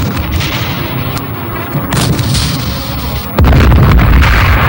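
Firing squad rifle volley: after a few fainter pops over noisy background, a loud sudden crack of gunfire breaks out and rolls on as a sustained, heavy rumble to the end.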